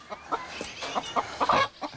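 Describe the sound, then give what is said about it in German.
Chickens cluck in a wire-mesh enclosure where chicks are kept: a faint string of short, quick clucks and peeps comes in an uneven rhythm, with a slightly louder cluster near the end. “Aber so Hühnervögel, das ist echt faszinierend. Ja, also das sind echt knuffige Tiere und die können auch schon gut fliegen.”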